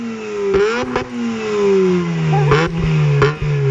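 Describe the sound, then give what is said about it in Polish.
A car engine runs and revs, its loud steady drone sliding gradually lower in pitch, with a few sharp clicks or knocks cutting through the hum. “Trzymam kciuki, odpalamy maszynę. Tak pracuje, mocniej. O właśnie.”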